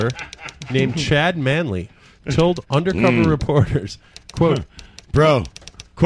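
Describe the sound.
Quick computer keyboard typing, jokingly passed off as tickets being printed, clatters as light, rapid clicks beneath a man's steady talking.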